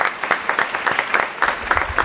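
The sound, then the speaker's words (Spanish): Audience applause fills a theatre after a choir opens a radio-fiction performance, with dense clapping that swells in quick rhythmic pulses and stays loud throughout. “Fuerte aplauso para ellos.”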